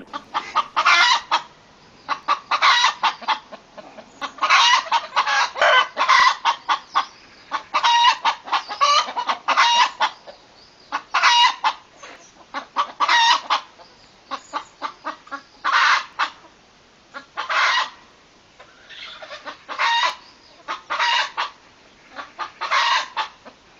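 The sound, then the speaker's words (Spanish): Hens cluck at a farmhouse near Ogoño, recorded in 2009, in many short, busy bursts of chatter that overlap and pause irregularly throughout. “Se hizo en 2009 y en un caserío cerca de Ogoño con unas gallinas.”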